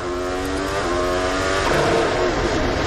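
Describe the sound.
A McLaren racing car with gearbox trouble gives off a loud, steady engine drone full of buzzing harmonic tones that waver and shift partway through, with no voices.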